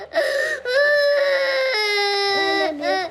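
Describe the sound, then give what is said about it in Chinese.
A young girl crying in loud, sustained wailing sobs with a steady, high, tonal pitch, broken by a few brief catches of breath. “别哭了，疼不疼呀？”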